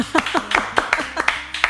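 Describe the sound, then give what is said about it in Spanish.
Clapping welcoming a guest as she is introduced: a string of separate, sharp hand claps in a fairly even rhythm, each standing out on its own rather than merging into a wash. “¡Aplausos!”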